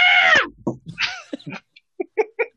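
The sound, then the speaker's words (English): A voice imitates the scream of a fainting goat with a loud, wavering bleat whose pitch falls. It is followed by several shorter broken vocal bursts and fragments of talk. “you just hear one of the goats go,”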